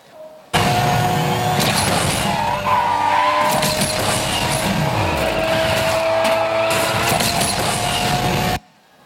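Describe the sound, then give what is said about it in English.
Car drifting in an arcade racing video game, a loud, continuous engine roar layered with screeching tire squeal and skidding. It holds steady for about eight seconds, then stops abruptly. “So that's an example of a drift.”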